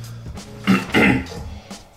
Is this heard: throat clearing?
yes